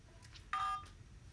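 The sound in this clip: A telephone keypad dialing tone sounds as one clear, steady electronic beep of about a quarter second. A few much fainter tone blips come before and after it, and no one speaks.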